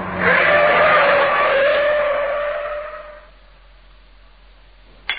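Tires screech as a car skids with its steering failing from a slackened track rod nut. A loud, sustained squeal lasts about three seconds, then drops to a quiet hiss, and a single sharp knock follows near the end.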